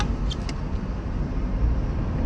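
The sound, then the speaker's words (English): Steady low rumble of a car being driven, with a constant road and engine drone that stays even throughout and carries no clear speech. “I'm just driving and bullshitting, but having fun.”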